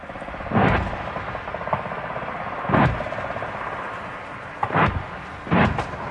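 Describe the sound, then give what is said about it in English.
Heavy gunfire from a military live-fire exercise near Townsville, Queensland, Australia: four deep, loud booms at irregular intervals over a steady low rumbling background. “That's the sound of a live fire exercise taking place near Townsville in Queensland, Australia.”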